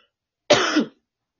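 A single short, rough cough-like throat clearing from a person with an itchy throat, one harsh burst lasting under half a second, loud and alone against silence.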